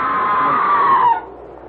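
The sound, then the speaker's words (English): A scream echoes through an old manor: a single sustained high-pitched cry lasting just over a second, sagging slightly in pitch before it cuts off abruptly. “Oh, the scream! There it is again! That was a scream”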